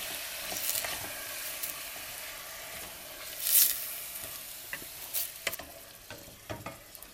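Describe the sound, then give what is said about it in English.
Minced meat sizzling and frying in a pan while being stirred: a constant soft hiss with a few louder scraping stirs, one stronger burst near the middle. No talking. “And stir in the meat until it changes color.”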